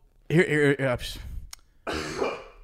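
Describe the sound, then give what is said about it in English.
A loud human cough mixed with throat clearing comes in a few harsh bursts. A voiced, rasping opening is followed by a sharp catch and a breathy, rough expulsion. “Excuse me, that was a loud cough.”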